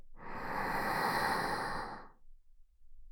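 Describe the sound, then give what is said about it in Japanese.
A single long, deep breath drawn and released during a guided breathing exercise, a soft breathy rush that swells and fades over about two seconds, alone with no voices. “大きく息を吸って、吐いて、大きく息を吸って、”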